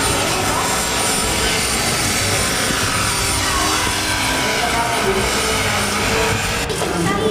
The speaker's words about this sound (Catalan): Això és una maqueta d'un helicòpter.